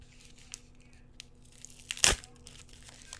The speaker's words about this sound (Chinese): 把它撕开，然后这一面贴在内裤上。